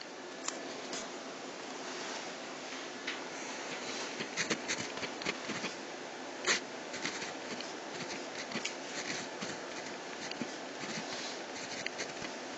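Faint scratchy strokes of writing as terms of an equation are written out, with short bursts of scraping and a few slightly louder taps over a constant low hiss.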